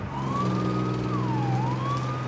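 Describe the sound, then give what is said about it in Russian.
An ambulance siren sounds as the vehicle pulls up to an apartment building entrance. The loud wailing tone slides up and down over a steady low drone. “Скорая подъехала к подъезду.”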